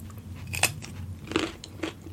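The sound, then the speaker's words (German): Crisp crunching bites into a raw carrot dipped in a dip, three distinct snaps spaced apart, each a short bright crack, with quiet background between them. “ich nehme jetzt mal hier so eine Karotte, ja. nur damit ihr es glaubt. Nun dippen wir hier mal.”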